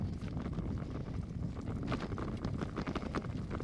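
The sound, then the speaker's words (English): Light east wind buffets the microphone while riding up a smooth, almost dirt-like gravel road toward the summit of Dalles Mountain, a steady low rumble with faint rustling throughout and no talk. “Light east wind that we're going into, but not difficult.”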